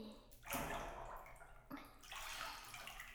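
Bath lotion is poured into a tub of bath water, giving faint sloshing and splashing with two louder surges of water.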